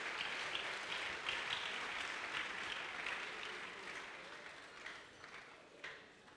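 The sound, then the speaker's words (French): Church audience applause as worshippers clap for the Lord during a service: dense, continuous clapping that holds steady, then thins and fades toward the end with a few louder claps standing out. “On acclame le Seigneur. Hebu tumchapie Bwana makofi.”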